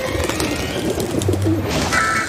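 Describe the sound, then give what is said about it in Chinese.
Pigeons coo in a city, giving soft, low cooing calls against a steady, noisy urban background. “美国纽约市是800多万人，和超过400万羽鸽子的家园。”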